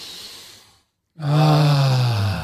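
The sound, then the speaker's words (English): A deep breath during a breathing exercise: a soft, airy intake of breath fades into a moment of silence, then a long, loud voiced exhale follows, a low, steady sigh that lasts to the end. “Let's take a deep breath here.”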